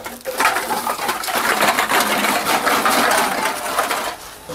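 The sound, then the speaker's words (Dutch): Many deposit cans and bottles clatter through a bulk return machine, a continuous dense metallic rattling and tumbling that runs loud for nearly the whole clip. “Maar een machine waar je in één keer meer dan 100 statiegeldblikjes en flesjes kunt weggooien. Een zogenoemde bulkmachine. En zo werkt die. Ik druk nu op open. Het luik gaat open.”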